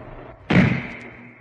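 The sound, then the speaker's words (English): A single sniper rifle gunshot rings out, a sharp, loud crack near the middle followed by a short, decaying tail over a low background hum. “Oh, the sniper! She's been shot! The sniper!”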